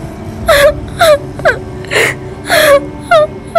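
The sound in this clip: A woman crying hard, with a series of loud, moaning sobs in short bursts that bend in pitch and break off between breaths, with no other voices.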